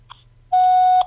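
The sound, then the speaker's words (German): An answering machine's signal tone: one steady, sustained electronic beep of about half a second, loud and alone, after a faint short blip. “Bitte sprechen Sie nach dem Signalton.”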